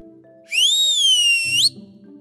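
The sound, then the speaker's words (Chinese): A person whistles one sustained, clear high note that holds steady, then slides sharply upward before cutting off, followed by a brief low rumble. “吹了声口哨”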